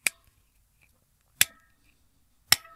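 Three sharp, crisp clicks of a stylus punching braille dots into paper on a slate, each a brief isolated snap separated by about a second of near silence.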